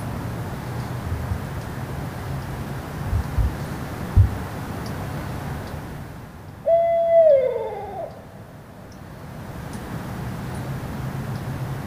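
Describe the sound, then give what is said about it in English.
Barred owl hooting: a single hooted phrase ending in a descending, slurred note, moderately faint over steady low wind noise. “Barred owl. American.”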